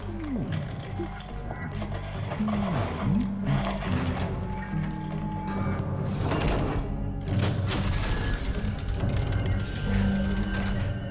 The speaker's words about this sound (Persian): بفرمایین در باز شد